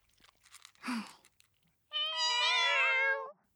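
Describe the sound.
A cat meows once, long, loud and drawn out, with no talk over it, after a short burst of quieter noise.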